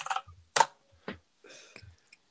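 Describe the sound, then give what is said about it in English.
Keyboard typing: a few irregular, faint clacking bursts of keystrokes separated by short pauses, with no voices. “I'll just get my typewriter out. Typewriter. Just hit your head on the keyboard more, please.”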